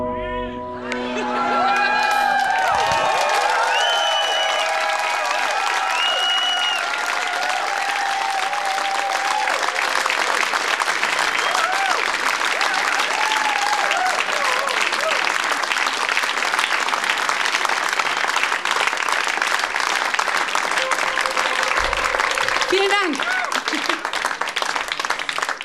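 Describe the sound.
Audience applauding and cheering after acrobatic flips, a flic-flac and a double somersault, as a few musical tones fade at the start; dense, steady clapping with whoops and shouts carries on loudly throughout.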